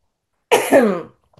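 A single sneeze bursts out sharply in two quick parts, then fades. It is loud and stands alone against silence.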